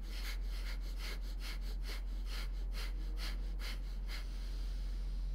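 Guided breathing exercise: rapid, regular breaths in and out, a long run of soft airy puffs at an even rhythm, with a steady low hum beneath and no talking.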